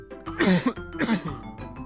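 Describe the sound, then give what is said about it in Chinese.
A person performs two harsh, rasping coughs for a feverish, unwell character. The coughs are close together and moderately loud, and a softer throat sound trails after them. “他忍不住咳嗽”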